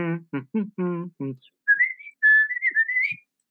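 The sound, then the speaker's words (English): A person imitates a robot droid's high electronic chatter by whistling quick, warbling, gliding tones that climb in pitch. The whistling follows a brief burst of speech. “they had that classic, whistling that he does on Tatooine when he's, you know, R2 that way. And he's going,”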